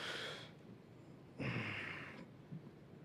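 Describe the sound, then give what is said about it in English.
A deep breath drawn by one person: two breathy, airy rushes of air, a short one followed by a longer, stronger one lasting under a second, with no talking. “ready? Take a deep breath.”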